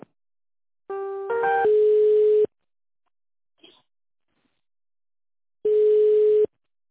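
Telephone tones play while a call is being transferred: a brief stepped chime runs into a long, steady electronic tone. After a stretch of near silence, a second steady tone lasts about a second.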